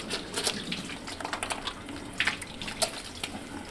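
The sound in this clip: Running water at a sink as a surgeon washes hands before an operation, a steady splashing rush broken by a few brief louder gushes, with no voices.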